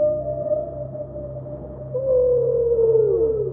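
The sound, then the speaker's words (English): Whales vocalize in long tonal moans over a steady low hum, with a louder sustained call entering midway and sliding downward in pitch toward the end. “Now, that's the sound of whales on our planet.”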